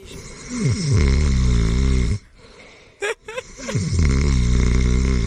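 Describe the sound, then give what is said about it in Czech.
A voice imitates a child's loud snoring, deep and rasping like a grown man's. Two long, rumbling snores are separated by a quieter gap with a brief snort. “on chrápal prostě jak 50-letý chlap”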